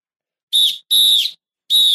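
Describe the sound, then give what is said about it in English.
A whistle blown three times: short, shrill, piercing blasts with a longer gap before the third, each clean and loud against silence. “Blow the whistle. Blow the whistle. Blow the whistle.”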